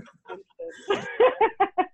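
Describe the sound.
A pet cat makes noise indoors at home: short harmonic calls at first, then a quick, evenly spaced run of clipped chirping sounds at moderate loudness.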